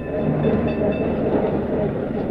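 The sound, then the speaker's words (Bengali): A tram rolls along its rails on a Kolkata street with a steady, dense rumble and a rattling clatter that continues unbroken through the whole stretch. “ওটা কি গাড়ি রে দাদা? Tram, বইতে ছবি দেখিস নি?”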